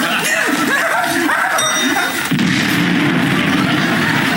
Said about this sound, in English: His nose has just exploded. I want an exploding nose.